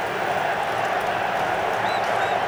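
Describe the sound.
Crowd noise from a football stadium after a corner kick in a match involving Ecuador: a steady, loud roar of cheering that holds at an even level.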